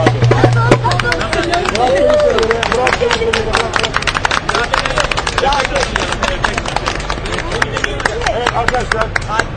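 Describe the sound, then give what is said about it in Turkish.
Applause from a gathered crowd: quick, dense claps run throughout, with voices speaking and calling over them. “Bravo. Bravo. Bir alkış yapalım.”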